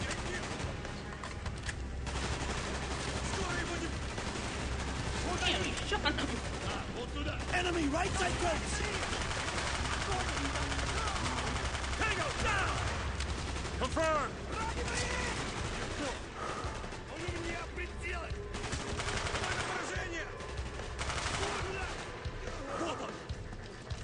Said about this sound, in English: lots of shooting and reloading out of cover